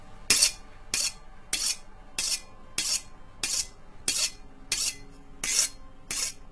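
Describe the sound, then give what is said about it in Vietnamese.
A knife is sharpened on a whetstone in steady, evenly spaced rasping strokes, each a bright gritty scrape of under half a second, repeating about every 0.6 seconds with brief quiet gaps and no voices. “trên tay đang cầm một con dao, tay kia đang cầm một cái cục đá mài dao xoèn xoẹt”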